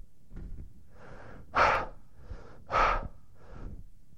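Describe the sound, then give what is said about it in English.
A voice imitates the heavy panting of a climber near the summit of Mount Everest, struggling for breath in thin, low-oxygen air: about six rhythmic breaths, with two louder, harsher gasps standing out among softer ones. “This is how you go up Mount Everest, like this. This is about how fast, because it's so little oxygen, you can hardly breathe.”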